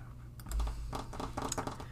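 Someone types a message on a computer keyboard, producing a quick run of many soft key clicks, faint over a steady low hum.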